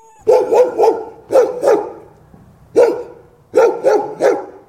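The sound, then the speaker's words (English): A dog barking in a sound-effects recording: nine loud, sharp barks in uneven clusters of three, two, one and three, with brief quiet gaps between them. “This is a sample from the Ultimate Real World Dog Sound Effects Library.”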